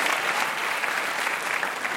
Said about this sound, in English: Give her a hand, Megan McCain.